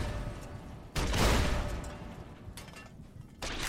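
Gunfire in a video game: a few loud, noisy bursts of shots break over a steady background hum, with no talking.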